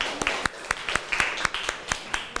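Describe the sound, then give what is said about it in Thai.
Classroom clapping for a student who has just answered a question on human rights: a small group giving a steady run of sharp, separate hand claps, fairly faint, with no talk over it. “ขอบคุณค่ะปรบมือให้เพื่อนหน่อยค่ะ”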